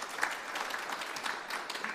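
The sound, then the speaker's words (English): An audience applauds the senior archivist who organised an evening event at a library. The clapping is steady and dense, a continuous patter of many hands at an even level. “Why don't we give her a round of applause?”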